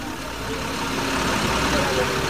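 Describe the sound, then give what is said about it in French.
Two buses carrying deportees arrive on the Haitian side of the border, their engines idling in a steady, low rumble that continues without breaks. “Deux bus viennent d'arriver.”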